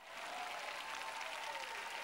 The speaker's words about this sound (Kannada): ತಮಾಷೆ ಆಗಿಲ್ವೇ ಹೇಗೆ ಎಲ್ಲರೂ ಒಳ್ಳೆಯ ಭಾಗಕ್ಕೆ ಚಪ್ಪಾಳೆ ಹೊಡೆದರು?